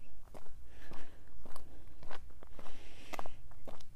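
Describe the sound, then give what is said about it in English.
Running footsteps head up a big hill at the start of a short, easy three-mile run, a steady rhythm of many soft thuds at moderate loudness. “up the big hill as I head out to do a short and easy 3 mile run.”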